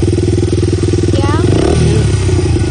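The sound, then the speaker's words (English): A dirt bike engine runs at a loud, steady, low throbbing rumble from start to end, without any clear revving. “This your dirt bike?”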